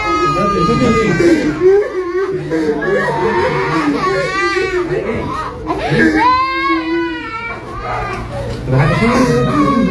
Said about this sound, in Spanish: Y están escuchando el lamento de una gárgola.